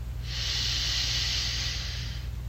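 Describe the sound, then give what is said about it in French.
A slow, deep inhale through the nose during a guided relaxation meditation, heard as a smooth, steady airy hiss lasting about two seconds, over a low, constant drone. “Prenez quelques respirations lentes et profondes en inspirant par le nez”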